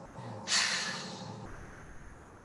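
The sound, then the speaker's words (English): A long voiced exhale on "haaa" during a breathing exercise, heard as a breathy rush that swells suddenly, holds for about a second, then cuts off into quiet. “We push down, and on the exhale we say H-A-A-A.”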